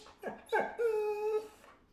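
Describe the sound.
An excited pet dog whimpers at the prospect of a walk, giving two short yelping whines and then one long, high, drawn-out whine that tapers off.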